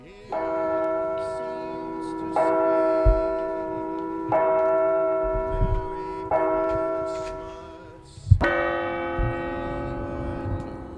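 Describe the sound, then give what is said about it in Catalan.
A clock bell strikes five times at steady intervals of about two seconds. Each stroke is loud and rich in overtones, with a long, ringing decay that carries into the next one. “Però així que el rellotge toqui la una, veuràs com apareix el primer fantasma.”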